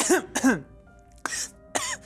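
Throat clearing caused by ginger biscuit crumbs: two rough, raspy voiced hacks close together, then a pause and two sharper, breathy coughing bursts, alone with no talk.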